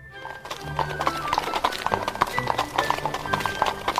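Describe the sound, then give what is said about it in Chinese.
A horse-drawn carriage departs with many hoofbeats clip-clopping in a steady, continuous trotting rhythm. “马车离去的时候。”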